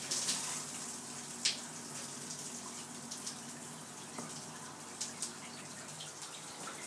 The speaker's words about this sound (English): this is the sound of the shower today. Kind of a delicate one, really.